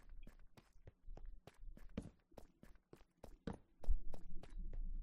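Footsteps of someone walking back up, many even, steady steps in a regular rhythm that grow louder toward the end.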